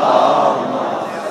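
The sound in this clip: A crowd chants salawat in unison in response to a call, a dense, loud, sustained wall of many voices that tapers off slightly toward the end.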